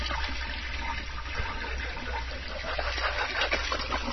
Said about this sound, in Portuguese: Pra que que vão soltar descarga? Logo um descargão, né? Pra que um descargão de fundo?